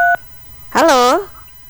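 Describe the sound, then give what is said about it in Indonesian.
A single short telephone keypad dialing tone sounds as a caller is rung back, a clean steady dual-pitched beep, followed after a pause by a brief voice. “Teh Eka, mungkin bisa dicoba kembali ya Teh Eka, menghubungi kembali ya.”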